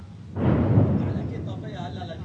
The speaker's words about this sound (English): As we enter the village, there are more Israeli airstrikes nearby.